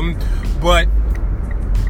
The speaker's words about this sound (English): Of course, I'm driving, so there's going to be a lot of noise in the background.